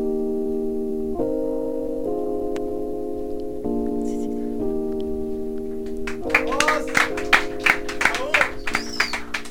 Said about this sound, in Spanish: El aplauso gigante